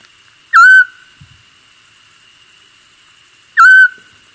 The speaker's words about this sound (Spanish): los dos me han dicho que es el... El lautillo. Ahí está. El lautillo